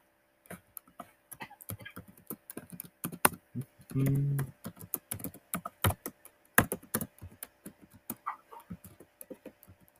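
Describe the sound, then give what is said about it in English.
Many quick, light clicks of typing on a computer keyboard come in an uneven, busy rhythm, fairly faint overall, with a brief louder tonal burst partway through. “Massive typing. Doing a tip-tap. Tip-tap.”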